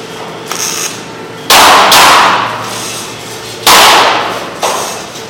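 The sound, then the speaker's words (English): Tack welding on steel tanks makes a few sharp, crackling bursts, with two loud ones that each fade away over a second or so. Fainter crackles and clanks fall in between, and no voices are heard. “Tacking it solid, but move away when he does this side. Then he'll get all tacked completely solid, then we'll weld it up.”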